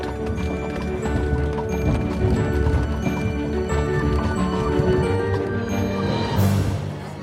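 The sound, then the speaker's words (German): A horse-drawn carriage travels in haste toward Darmstadt, with steady clip-clopping hooves over a continuous rumble and rattle of wheels, loud and dense throughout. “In einer Kutsche brachen wir eilig zurück nach Darmstadt auf.”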